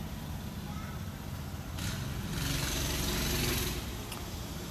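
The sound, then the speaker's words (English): Engine drone of a four-wheeler ATV ridden by a kid nearby, a steady buzzing rumble that swells louder through the middle and then eases back slightly. “Sorry, this kid's riding uh, four wheelers. That's funny.”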